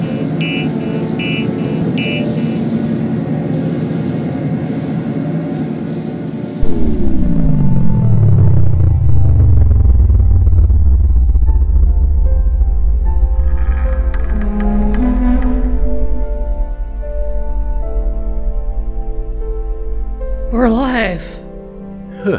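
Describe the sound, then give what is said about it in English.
A spaceship lands itself, its hull glowing hot and shedding sparks of superheated plasma. A descending sweep opens into a loud, steady low roar that fades, followed by a brief burst of warbling, chirping electronic tones. “The ship is landing itself. Let's hope it knows what it's doing.”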